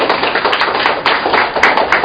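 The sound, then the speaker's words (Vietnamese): Applause from a church audience during a sermon: a dense, steady wash of many hands clapping that stays loud and continuous throughout, with no voices over it. “Rồi, chào pháo tay thưa anh chị em.”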